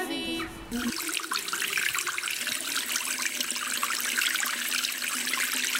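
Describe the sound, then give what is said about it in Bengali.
Tap water runs steadily into a sink while plates are washed, a dense, continuous hiss and splash that stays at an even loudness after a short opening sound. “আমি তো plate পরিষ্কার করছি। Plate পরিষ্কার করছেন নাকি পানি অপচয় করছেন?”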